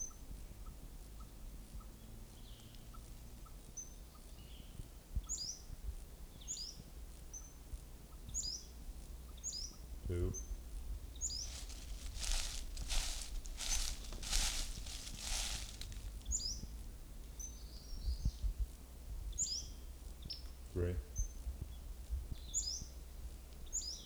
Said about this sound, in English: Western flycatcher number one.